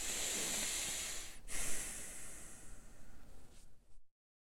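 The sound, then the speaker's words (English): A deep breath is drawn in as a long, soft airy hiss that carries on for about four seconds, then cuts to silence. “Let's just start by taking a deep breath in.”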